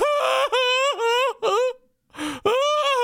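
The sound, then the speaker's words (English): A college football player sobs uncontrollably: strained, wailing moans in several breaking bursts, each a pitched cry that wavers and catches. There is a short gap before the final loud wails. “He is, he is sobbing uncontrollably. I haven't witnessed crying like that”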